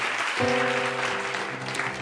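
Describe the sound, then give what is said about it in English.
Steady, dense studio audience applause fills a game show moment, holding at an even level throughout. “They're going on. Woo! And we applaud that.”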